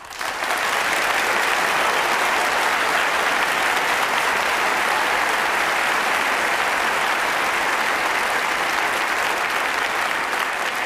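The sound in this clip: Applause from an audience welcoming a young string quartet from Rochester onto the stage: dense, even clapping from many hands that starts abruptly and holds at a steady, loud level for about ten seconds without a break.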